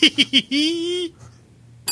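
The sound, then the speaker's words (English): A bell sound effect plays three quick bright pings, then a longer sustained ringing tone and one short final ping. “So, and a new bell.”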